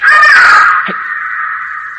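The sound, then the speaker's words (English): A bird caws in one harsh, drawn-out call. It is loudest at the onset, then holds steady at a slightly lower level until the end. “What was that? A bird.”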